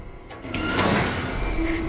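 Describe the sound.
Someone raises the lid of a large metal rubbish container, making a sustained metallic scraping and creaking that swells, then settles into a thin, steady squeal toward the end.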